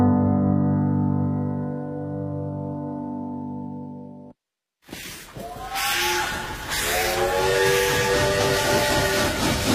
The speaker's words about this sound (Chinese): 伴随着这火车的汽笛声，开启我们今天城市文化范儿的访谈部分。